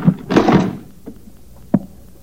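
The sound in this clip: A locked leather satchel being forced open: a loud scuffling, rattling burst of handling noise, then quieter fumbling and a single sharp knock or click near the end, with no voices.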